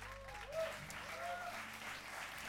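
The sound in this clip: Faint, steady audience applause at a church service welcoming the pastor, a soft wash of clapping with a few voices rising over it.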